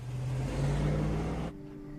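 A car drives off down a neighborhood street. A steady mid-pitched engine rumble runs for about a second and a half, then drops away abruptly, leaving a faint low hum.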